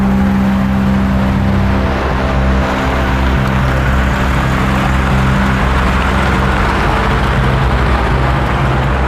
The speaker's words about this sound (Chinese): 师傅，开车。